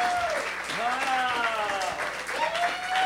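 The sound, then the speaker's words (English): Audience applause welcoming a guest onto a stage, steady dense clapping throughout with a voice speaking over it. “Let's have a big warm welcome for Kumail Nanjiani, everybody. Kumail, get up here.”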